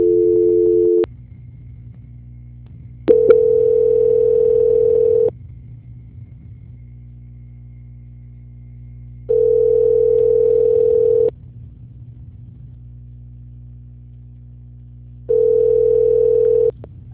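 Telephone line tone during a call transfer: a steady, mid-pitched beep sounds four times in long, even pulses with long silent gaps between them, over a faint low hum on the line.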